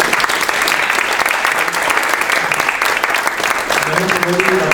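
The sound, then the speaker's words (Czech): Loud, sustained applause from an audience at a presentation, after the question round closes. Dense clapping from many hands continues evenly throughout, and a voice comes in near the end. “prosím bych o potlesk”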